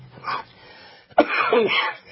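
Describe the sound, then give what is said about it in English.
A man coughs while laughing: a soft, breathy burst first, then a sharper, rougher one with raspy, hoarse tails, all fairly faint. “I'm laughing, so I got a cough.”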